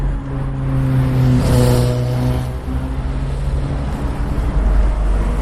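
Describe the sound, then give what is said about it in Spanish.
A jam of road traffic on the A5 motorway gives off a loud, steady drone of idling and creeping engines. The low hum holds throughout, with a brief swelling rush near the start and no voices. “Así suena la A5 en ese punto.”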